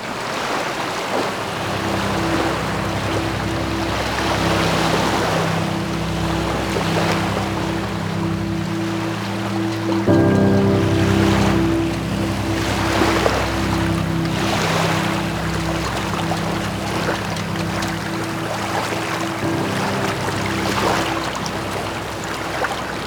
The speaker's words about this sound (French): Voici donc la marée montante.